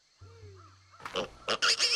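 A boar grunts: a quiet stretch of faint low hum gives way to a few rough, noisy grunting bursts that grow louder toward the end.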